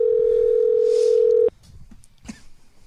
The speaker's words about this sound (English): Hold on 1 second. Let me just dial him in here, guys.